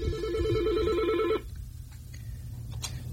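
A telephone rings with an incoming call on a radio phone-in line, a loud warbling electronic trill that cuts off abruptly after about a second and a half, leaving a low hum and a few faint clicks.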